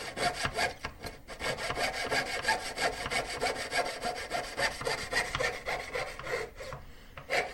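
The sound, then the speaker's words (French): Jeweler's saw with a very fine blade cutting silver wire braced against a bench pin, a quick, steady run of thin rasping back-and-forth strokes that continue without pause and without talk. “tout simplement une petite scie de bijoutier avec une lame très fine. Et on va venir ici en appui sur ce qu'on appelle nous la cheville. Je vais venir m'appuyer contre cette cheville. Je vais appuyer mon fil d'argent et je vais venir scier.”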